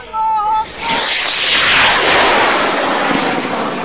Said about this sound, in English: but with the capacity to do this, fire rockets at Israel.